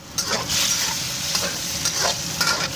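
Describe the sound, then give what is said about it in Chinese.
Breakfast sizzles in a frying pan as a mother cooks early in the morning, with a steady hiss of frying broken by a few sharp stirring and scraping strokes. “我知道， 这是妈妈起大早给我做早餐的声音。”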